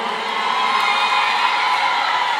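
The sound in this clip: Audience cheering at a youth night event, a steady dense roar of many voices with shrill whoops and shouts running throughout.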